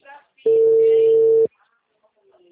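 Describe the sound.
A telephone call rings while waiting for an answer: one steady, mid-pitched ringback tone lasting about a second, with brief faint speech before it.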